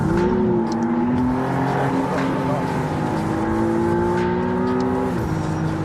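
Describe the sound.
A turbocharged McLaren sports car is driven hard, its engine a loud, continuous drone that climbs slowly in pitch before dropping sharply near the end, with a voice talking over it.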